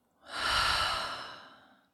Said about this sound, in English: take a deep breath. Let's do that together. Inhale in through the nose. Open the mouth and let go.